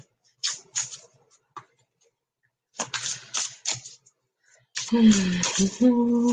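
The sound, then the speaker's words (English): Cards are drawn from a deck during a spiritual card reading: a few crisp flicks and slides of card stock, spaced apart. Then a woman talks, with more faint card handling under her voice. “Ruth, I'm being asked to draw two cards for you.”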